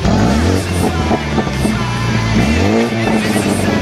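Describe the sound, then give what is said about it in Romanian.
Engine and dual sport exhaust of a Mini John Cooper Works 4x4 with a 306 hp 2-litre twin-turbo four-cylinder and BMW sport automatic, a loud continuous growl with strong low harmonics and a pitch that shifts and climbs briefly midway. “avem un Mini John Cooper Works 4x4, cutie automată sport BMW, motor Twin Power Turbo cu 4 cilindri, 2 litri și 306 cai putere și o evacuare sport dublă care sună cam așa.”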